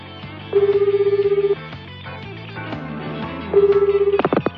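Telephone tones as a call is redialed: two bursts of rapidly pulsing electronic tone, separated by a pause, over soft background music, followed by a few sharp clicks at the end.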